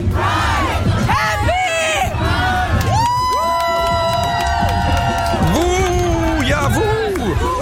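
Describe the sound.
Loud crowd cheering aboard the 1 Live truck at a CSD Pride parade: a dense, unbroken mass of whoops, shrieks and shouting voices with sharp high-pitched yells rising above the din throughout.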